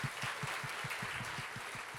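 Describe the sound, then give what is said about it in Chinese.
A church audience applauds during a service. The dense, faint clapping runs continuously over a regular low pulse. “再一次俾掌声我哋嘅神啊，好吗？”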